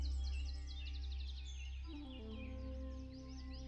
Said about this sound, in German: Um dich herum die Lebendigkeit dieser Wiese. Vögel, die ersten Insekten,